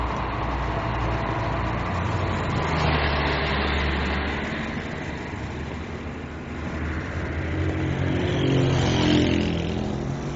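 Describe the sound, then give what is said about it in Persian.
A car engine running as the car reverses a few metres toward a bus stop, a steady low rumble that swells a little in the middle and again near the end, with no voices. “کامران چند متری دنده عقب میاد به سمت مینا.”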